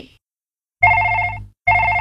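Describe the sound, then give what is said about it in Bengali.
A telephone bell rings in two loud electronic bursts, the first lasting under a second and the second cut off at the end, with a bright, steady, warbling tone and a short silence between them. “শুনতে পাচ্ছিস না? ফোনটা বাজছে তো। বইটা রেখে ফোনটা ধর না।”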